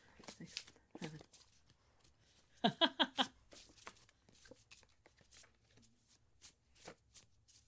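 Tarot cards shuffled by hand: a quick riffle of crisp, papery crackles bursts out midway, set among soft, scattered handling rustles and taps.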